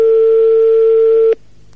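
Ringback tone of an outgoing telephone call: one steady, single-pitched electronic beep holds for over a second, then cuts off abruptly into faint line hiss.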